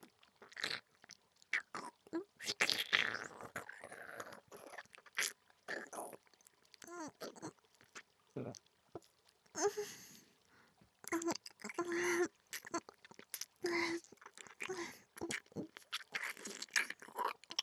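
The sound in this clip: Faint, close chewing and biting of warm food taken from someone's hand: many irregular crunchy mouth sounds with short pauses between bites.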